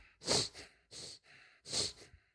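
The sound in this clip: A voice imitates slow, low, heavy breathing, making a few separate breathy, hissing exhalations with short pauses between them, loudest at the start and trailing off faintly.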